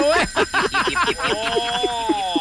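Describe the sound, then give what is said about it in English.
A phone ringtone playing a bright children's theme tune: a quick run of loud tuned notes, followed by several evenly spaced, sustained higher tones. “I thought my phone was ringing.”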